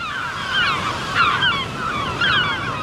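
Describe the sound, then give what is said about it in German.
Geese honk in short bursts a few times over steady wind and surf noise on the North Sea coast. “Schön, oder? Das ist der Sound der Nordsee.”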